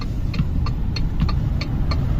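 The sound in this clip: A car engine drones low and steady as the accelerator is pressed and the car, losing gears and speed, fails to pull. A regular series of light ticks sounds above the rumble.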